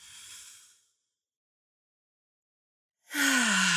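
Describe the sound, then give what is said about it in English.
A soft, airy hiss of breath is drawn in through the nose during a guided breathing exercise and fades out within a second. After a silence, a louder, voiced, breathy exhale begins at the end. “Okay, so we're going to breathe in through the nose. Hold for a few counts and out through the mouth.”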